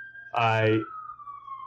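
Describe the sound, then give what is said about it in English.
A siren passes along a New York street, its high, steady wail sliding slowly lower in pitch for the whole clip, with a brief louder burst of dense, harmonic-rich sound near the start. “siren ripping by. I'm definitely in New York.”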